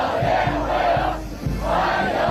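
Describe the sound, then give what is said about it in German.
Dozens of young Chinese people chant a welcome in unison on the runway at Beijing airport just after a US president lands, a loud crowd repeating rhythmic shouted phrases at a steady beat. “Ja, was wir hier hören, das sind Dutzende junge Chinesinnen und Chinesen mit Sprechchören. Herzlich willkommen, rufen sie, noch auf der Landebahn direkt nach Trumps Ankunft am Flughafen in Beijing.”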